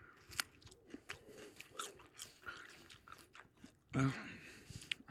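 Biting and chewing a grilled cucumber that smells sour: many small, crisp crunches at an uneven pace, with one louder, wetter crunch near the end and no talk.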